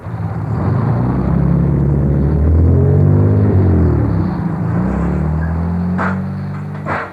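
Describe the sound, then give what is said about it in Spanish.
A car approaches in a quiet, empty alley with a loud, low engine rumble and hum whose tones shift in pitch, holding steady for several seconds before easing off near the end. “Qué cachimbo de gente la que viene en ese carro.”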